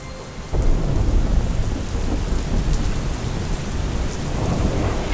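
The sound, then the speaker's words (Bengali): A sudden, heavy downpour on a cloudy day bursts in after about half a second and becomes a loud, dense, steady roar of rain that continues to the end, with no voices. “মকলেনের কাছাকাছি পৌঁছতেই ঝেঁপে বৃষ্টি এলো। সকাল থেকে মেঘ করেছিল কিন্তু বৃষ্টির কোনো পূর্বাভাস পাওয়া যায়নি।”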